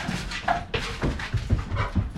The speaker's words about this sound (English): That's the dogs moving out. They hungry. They got to go piss, ladies and gents.